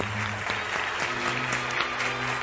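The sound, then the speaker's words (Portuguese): Continuous crowd applause from the audience of a religious program after a question about a commandment of Jesus, a steady clatter of many hands over a low, sustained tonal hum. “Uma salva de palmas para vocês.”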